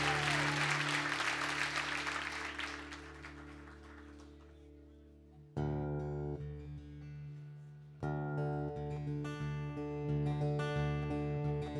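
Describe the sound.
Audience applause welcoming a performer at a live show in Nashville: a broad, steady wash of clapping for about five seconds that thins out as sustained musical tones begin and continue to the end.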